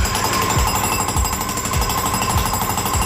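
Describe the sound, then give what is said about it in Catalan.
Jackhammer-style drilling, used as an effect for boring a hole through the Great Wall of China, pounds loudly and steadily with a dense, continuous rattling hammer and regular low thuds throughout, with no voices. “el cas de l'home i la dona, Manel, que han estat detinguts a la Xina per haver foradat la muralla xinesa.”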